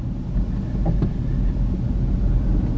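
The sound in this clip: A car cruising slowly into a ghost town at Calico Rock gives a low, steady rumble of engine and road noise that stays even throughout, with no voices.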